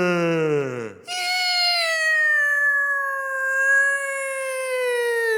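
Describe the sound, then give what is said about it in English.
Eerie whale-like song from an alien probe in a science-fiction film: a falling harmonic tone, then after a brief break a long, loud wailing call with rich overtones that slowly glides downward, heard alone without voices. “Then Spock says, "Oh, that sounds like a whale.”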